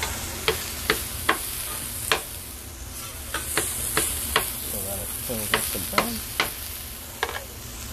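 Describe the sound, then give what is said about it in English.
Stirring and sizzling as already-cooked food is reheated in a frying pan with olive oil and vinegar in a deli kitchen; many sharp utensil taps and scrapes recur irregularly over a steady frying hiss. “Let it cook. Let it heat up because it's already cooked.”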